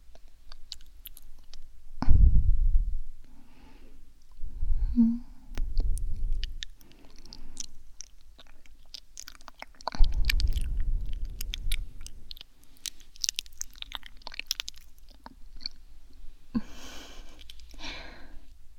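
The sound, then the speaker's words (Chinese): A child chews cantaloupe, giving moist, soft chewing and smacking in a few separate bursts with small clicks between them. There is no talking. “看宝贝儿子吃得这么香，妈妈也想尝一尝嘛”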